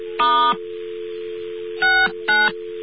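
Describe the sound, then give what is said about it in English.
Touchtone dialing of star sixty-nine on a telephone line with faulty tones: three short beeping bursts, the first slightly longer, sound over a continuous steady dial tone. “We dial 9 first. Now we dial *69. Uh-oh. Something's wrong with our touchtones. Let's try that again.”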